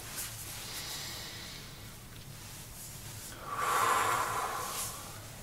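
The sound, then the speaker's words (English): A deep breath taken during a calm guided relaxation, heard as one soft, airy swell near the end over a faint steady hiss, with no talking. “And take a deep breath.”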